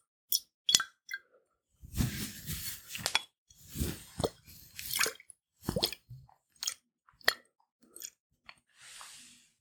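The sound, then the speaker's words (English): Wet squishing and soft plopping as drops of liquid lavender oil are worked in and coated on, a long irregular series of many gentle squelches and drips, moderately faint and with no talking. “So I'm just going to coat it in a few more drops of liquid lavender.”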